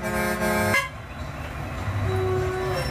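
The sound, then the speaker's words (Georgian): Car horns honk in a narrow, congested street: one long, loud, blaring blast opens over the traffic rumble, then a second, thinner and fainter tone sounds later under the steady street noise. “თან ეს გამონაბოლქვი და საყვირები. ტვინში გირტყამს.”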